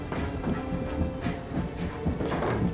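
A train departing, with a steady rumbling clatter and a light hiss that swell and ease as the cars roll past.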